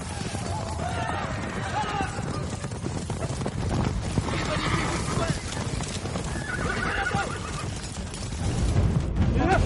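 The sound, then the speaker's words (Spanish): Galloping hooves and neighing as riders on horseback circle around in a valley, a continuous busy clatter of hoofbeats with whinnies rising above it. “En un valle unos jinetes rodean a Bala.”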